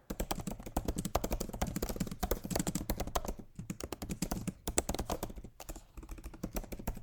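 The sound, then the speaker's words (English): Fingers type a search query on a computer keyboard, a rapid, continuous patter of many key clicks broken by a couple of brief pauses. “How long should you run a video ad on Facebook? I mean, we can probably type that right now. Let's see.”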